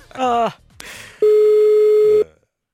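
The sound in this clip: A telephone ringback tone sounds on a call to a hotel in Linköping: one steady, mid-pitched tone held for about a second, after a short bit of voice and a click.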